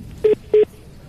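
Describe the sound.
Two short telephone keypad tones sound while a call is being joined. They are clear, evenly spaced beeps at the same pitch, each lasting about a tenth of a second, over a quiet background.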